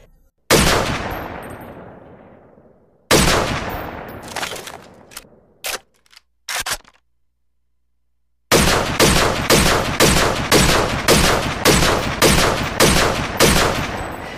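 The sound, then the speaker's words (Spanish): A firing squad shoots a deserter in a ravine. A few loud single shots ring out with long decaying echoes and are followed by scattered quick bursts. Then a long, steady, rapid run of many shots continues at an even pace. “En la quebrada de la guacamaya lo vamos a fusilar. Disparar a este traidor.”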